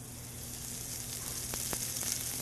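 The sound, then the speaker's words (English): Chopped green onions fry in about a tablespoon of oil, stirred quickly with chopsticks. The sizzle is steady and faint, with a few sharper crackles popping through near the end. “And just using chopsticks, you gotta move really fast so you can cook the green onions evenly. And you create this green onion oil”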